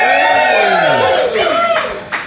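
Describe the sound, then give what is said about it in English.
Lively crowd of Irish music fans cheering and shouting in a bar during a live radio broadcast, loud overlapping voices rising and falling together. “And as you can hear, we still have a very, very lively audience with us, full of fans of the Irish music scene.”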